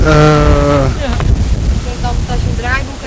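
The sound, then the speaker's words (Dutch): Strong wind blows straight into the microphone on arrival at Schiphol, a loud, rough rumble of gusts that never lets up, with a brief voice-like tone at the very start. “wat een wind.”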